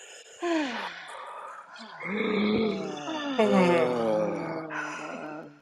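A group of people breathes out loudly together after a deep inhale. Overlapping voiced sighs and groans swell into a sustained, noisy chorus that lingers for several seconds before easing off.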